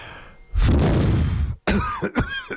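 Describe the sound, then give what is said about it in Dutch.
A long, forceful breath of air blows dust off a vinyl record, a rushing, hissy gust lasting about a second, followed by a brief pause and a few short breathy vocal sounds. “Ik ga het stof er even afblazen.”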